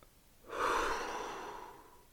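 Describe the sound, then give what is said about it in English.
One slow, soft breath, an airy rush that swells quickly and then fades gently, heard alone against quiet. “Breathe in. Breathe out.”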